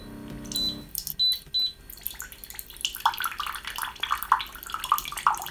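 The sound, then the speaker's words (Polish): Boiling water pours from a water dispenser after a few short, high electronic beeps from its button; a steady splashing trickle then runs to the end. “I już leci wrząca woda.”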